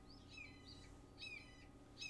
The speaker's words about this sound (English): whose birds are making noises? That's mine. I thought it was coming from you guys, and I'm like, the bird song. Should I close my window, or is that going to be annoying?